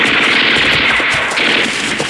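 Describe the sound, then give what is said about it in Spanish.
Sustained machine-gun fire during a chase across rocks: a dense, loud, continuous crackling barrage that runs without a break from start to finish. “Entre el fuego nutrido de las metralletas, Calimán escapa”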